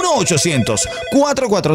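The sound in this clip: Telephone ringing after a toll-free number is dialed in a Spanish-language radio ad, a steady ring tone sounding with voices over it throughout.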